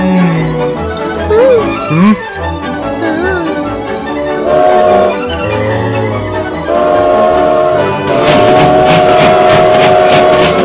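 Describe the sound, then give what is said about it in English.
A locomotive pulls away from a station, with horn tones and a steady rolling rail sound that stay loud throughout. “Hey, wait! Come back here, you lovesick locomotive! You can't leave me here!”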